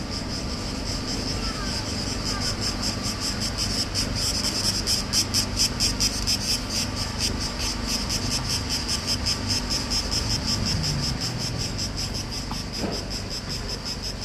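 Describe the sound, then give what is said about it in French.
Cicadas chirp below the Acropolis with a steady, dense, high-pitched pulsing buzz that runs unbroken throughout, over a low background rumble. “Qu'est-ce qui reste? Les cigales.”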